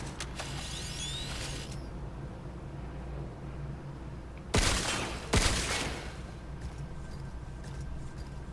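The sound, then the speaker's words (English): Gunfire while shooting at a creature in a video game: two sharp, loud shots in close succession stand out over a steady low background hum. “Shoot it in the butt. Missed. Wasn't able to aim for the butt.”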